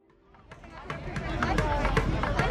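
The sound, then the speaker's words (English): Crowd hubbub outside a touring show's venue in Houston, Texas: a babble of many voices that grows louder, with sharp claps or knocks scattered through the noise. “This was the sound outside of the Gold Over America tour when it stopped in Houston, Texas.”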